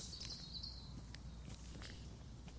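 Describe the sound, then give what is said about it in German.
Faint footsteps along a long street, soft scattered steps in a loose rhythm over a steady background hiss. “Ich gehe jetzt diese lange Straße noch zu Ende, vorbei am Herzbaum,”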